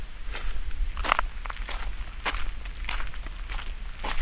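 Footsteps climb a small path toward a little wooden cable car station hut near Flüelen, a steady series of crisp steps over a low rumbling background.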